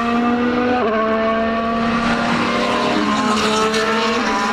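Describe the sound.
Race cars roar around the Gilles Villeneuve racing circuit: a loud, unbroken engine drone with bright, steady harmonic tones that shift in pitch as the cars go by, with no talk.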